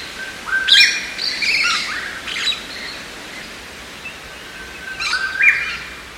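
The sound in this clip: Shrill, screeching calls of a purple-crowned lorikeet come in a few harsh, high bursts separated by quieter gaps, loud and clear over a soft background hiss.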